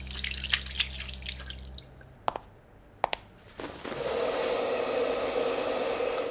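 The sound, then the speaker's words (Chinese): Water at a sink as hands are washed. A low hum fades, two sharp drip-like clicks follow, then a steady rushing sound of water continues to the end. “结束后他若无其事地走出去洗手烘干。”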